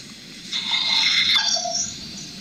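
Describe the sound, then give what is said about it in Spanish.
A small female dog reacts to a doorbell with one high, drawn-out whine lasting about a second and dropping in pitch at the end, heard alone over a faint background hiss. “No, ese es el timbre. Ahí reacciona la perrita.”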